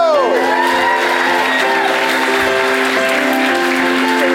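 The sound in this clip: An audience cheers and applauds to welcome a restaurant owner onto a stage. Dense, steady clapping runs throughout, with whoops and shouts mixed in.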